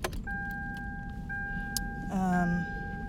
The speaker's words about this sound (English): Oh, let me turn back on my car